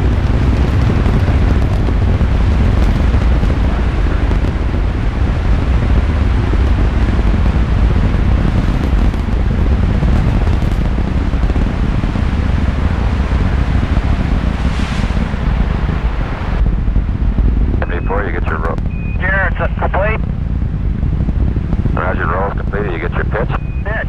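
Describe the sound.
A deep, continuous rocket liftoff roar at Cape Kennedy, from a recording made 50 years ago, stays loud and unbroken throughout, with a voice heard over it in the later part.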